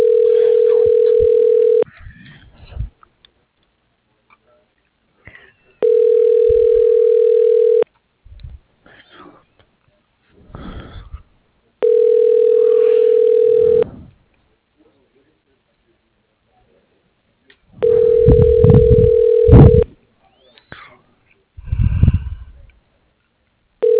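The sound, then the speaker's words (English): Telephone ringback tones sound on a call placed through an automated extension menu: four steady, mid-pitched tones of about two seconds each, separated by pauses, with brief voice-like sounds in the gaps. “The person you are calling is unavailable. Please leave a message after the tone.”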